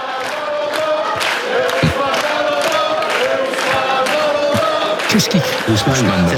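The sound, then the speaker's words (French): A crowd of football supporters chanting loudly to warm up the hall before a match, a dense and continuous roar of voices with a voice talking over it. “Écoutez le public, justement, qui est présent, qui est en train de chauffer la salle.”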